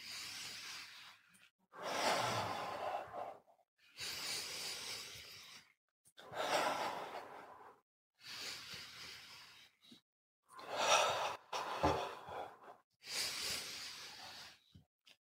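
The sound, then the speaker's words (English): Slow, deep breaths during a breathing exercise, taken with eyes closed while swaying the arms: a faint, steady series of long, airy, hissing breaths separated by brief silent gaps. “Close our eyes, 10 deep breaths, go.”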